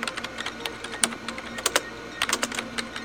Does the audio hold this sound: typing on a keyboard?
yes